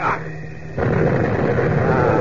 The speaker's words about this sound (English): push the pin down to set off the chemical firing mixture. Chemical firing mixture. Is right, this bomb ought to explode just as it hits that bomber.